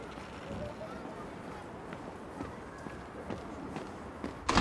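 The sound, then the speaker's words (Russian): Footsteps of a man crossing a yard toward a house with a tire iron in hand, faint irregular steps half-buried in steady background noise, ending in a short louder burst. “Обходит машину и идет с монтировкой к дому.”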